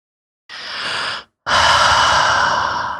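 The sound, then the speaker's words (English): A person breathes heavily with one long, noisy inhale. After a brief pause comes a longer, louder, rushing exhale that slowly trails off. “you want to breathe some more?”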